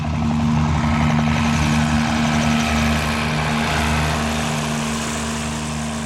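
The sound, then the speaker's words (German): A rescue helicopter flies over a house roof in a mountain region, giving a steady, loud droning engine hum with a faint rhythmic beat that eases slightly toward the end. “Über mein Hausdach aus fliegt Rega, Ziel Alpstedt.”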